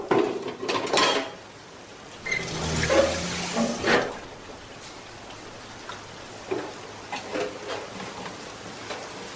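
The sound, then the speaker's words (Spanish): Clinks and clatter of a pot of oil being washed under running water in a kitchen, a few clustered knocks in the first seconds over a wet, splashing hiss, then quieter trickling with light taps. “La moza busca la olla de aceite y la lava.”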